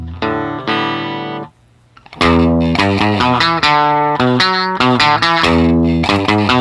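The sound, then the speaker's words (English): Distorted electric guitar through a Vox amp simulation, a short ringing chord, a brief gap, then a loud run of strummed, buzzy chords. “Here's a Vox amp. Turn some dials here.”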